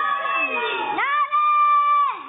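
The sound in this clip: A crowd, with high children's voices, shouts the drawn-out "Ya Ali" response to a Nara-e-Haidari call. A brief rising shout leads into a long cry held on a steady pitch for about a second, then a second shout begins.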